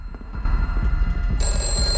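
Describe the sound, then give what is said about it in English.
An old rotary telephone rings on a desk. Its bright, sustained bell cuts in partway through over a low rumble and continues steadily to the end. “An old rotary phone rings on a desk”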